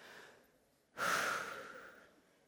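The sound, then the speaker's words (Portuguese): Deep breathing from a person, with one loud, rushing breath that tapers off slowly, following a fainter, softer breath. “Então pode respirar aí, vai, respira aí.”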